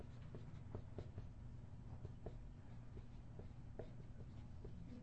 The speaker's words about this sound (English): You ever sometimes write really fast and you forget words because you're thinking faster than you write?